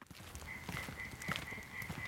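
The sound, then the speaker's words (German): European tree frogs croaking in a moor: a faint, steady rasping chorus with a sustained higher note, set against soft background noise. “Und der Laubfrosch quakt zur Brautschau.”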